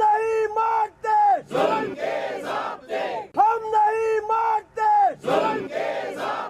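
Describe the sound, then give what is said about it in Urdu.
Journalists and human rights activists at an Islamabad protest against the attack on Geo TV journalist Hamid Mir chant slogans as a crowd. The chant is loud, rhythmic and repeated in clear, regular phrases. “ملک کے دیگر شہروں کی طرح اسلام آباد میں بھی صحافیوں اور انسانی حقوق کے کارکنوں نے مقامی نجی ٹی وی چینل جیو کے صحافی حامد میر پر قاتلانہ حملے کے خلاف احتجاج کیا اور نعرے بازی کی۔”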